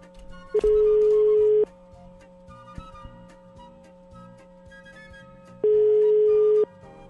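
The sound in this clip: A telephone call is dialed and rings out as two long, steady electronic tones, each about a second, separated by a several-second pause over faint background noise.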